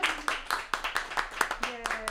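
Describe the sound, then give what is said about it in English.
A small audience gives a round of applause, many claps in a steady, even pulse. A voice cheers over the clapping near the end. “So a round of applause for everyone.”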